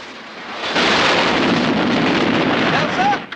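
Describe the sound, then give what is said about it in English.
A Jeep smashes into a tree and explodes in a loud, roaring blast that holds as a broad rumble for about two and a half seconds, then cuts off. “Haller crashes a machine gun through a window and hits the Jeep. It smashes into a tree and explodes.”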